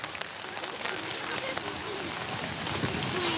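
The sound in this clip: Heavy rain pours steadily at dusk as a religious cross procession walks on, a dense, even hiss that holds for the whole stretch with faint voices beneath it.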